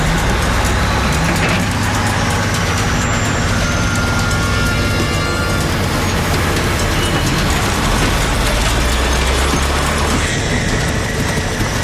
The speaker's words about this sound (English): By winching the trailer, Daryl hopes to drag it over the hill so he can get the load back to Winnipeg.